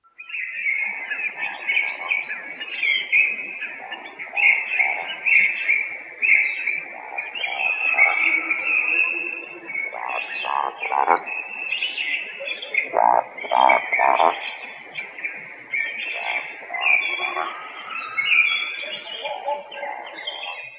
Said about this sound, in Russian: Вальдшнеп.